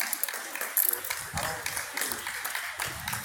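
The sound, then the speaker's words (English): A group of people clapping, with scattered sharp claps mixed into a busy wash of voices and crowd noise. “And they're clapping.”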